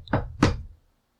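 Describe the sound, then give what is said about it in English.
Two heavy knocks on a tavern door, the second a little louder, each a dull thud that dies quickly into silence. “Walk up, give a knock before trying the door.”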